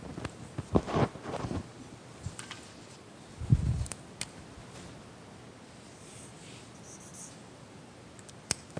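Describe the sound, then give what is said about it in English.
Light scratching of a pen or pencil drawing a picture on paper, with intermittent short strokes, a soft bump partway through and scattered faint clicks, all quiet. “I'm going to finish drawing my picture first, though.”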